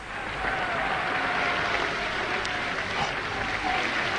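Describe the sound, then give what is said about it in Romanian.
Circus audience calling for Fram the bear, a dense, steady wash of crowd noise with clapping-like texture, fairly quiet and even throughout without clear breaks. “Auzi, maestre? Așa îl cheamă publicul în fiecare zi.”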